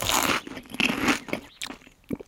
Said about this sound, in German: Hier, wollen Sie einen Maiskolben? Schmeckt lecker. Danke, nein. Dann esse ich ihn selber.